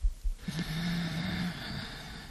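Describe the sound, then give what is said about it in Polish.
A slow, deep inhale through the nose: about a second of breathy, slightly rasping airflow that swells and then fades, with no voices. “wdech przez nos.”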